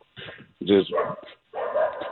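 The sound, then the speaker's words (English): Dogs barking in three loud, rough bursts of barks separated by short pauses. “it's Rocky. Just makes the dogs bark, man. Rocky does not like, man, player movement.”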